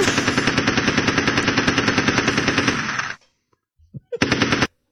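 Rapid automatic gunfire: a long sustained burst of about three seconds, a brief pause with a couple of faint thuds, then a second, shorter burst.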